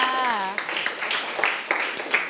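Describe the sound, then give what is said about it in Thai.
Scattered clapping from a class of students applauding a classmate. A voice speaks briefly at the start, then irregular, moderately loud claps follow. “โอ้โหเยี่ยมมากปรบมือให้เพื่อนค่ะ”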